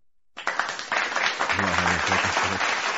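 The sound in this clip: An audience applause sound effect bursts in after a short silence, a dense wash of clapping that holds steady to the end while a voice speaks over it.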